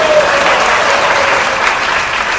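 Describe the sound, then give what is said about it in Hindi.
Audience applause, a thick, steady clatter of many hands clapping that stays loud for over two seconds and eases slightly at the end. “अभी समय आ गया, कोई नहीं बजा दो ताली”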